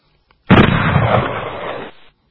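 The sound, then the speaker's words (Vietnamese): A lone bomb explodes close by in jungle terrain, one loud, dense roar that hits abruptly and rumbles for about a second and a half before cutting off. “Một trái bom cuối cùng nổ lẻ loi sát bên.”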